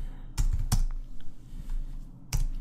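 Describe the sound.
Keys clacking on a computer keyboard as a new folder name is typed: a few sharp, loud keystrokes with softer taps between them.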